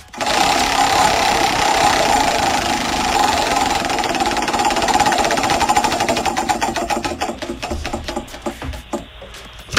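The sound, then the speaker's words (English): Rapid rattling clicks of a prize wheel spinning in a cash-prize game, a dense stream of ticks that gradually spaces out and slows toward the end before one last sharp click. “Let's spin the wheel for you. Here we go. Let's see what number you land on.”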